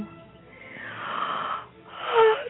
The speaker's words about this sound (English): And I think you are also yawning. Yes, I am.